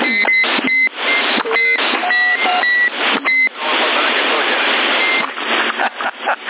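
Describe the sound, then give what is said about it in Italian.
Short electronic beeps from a CB radio set: a few brief tones of differing pitch cut through noisy, band-limited radio audio, with voices talking over the channel. “Giocando col bip, eia, sì, l'unica cosa di questi apparati che non si può levare”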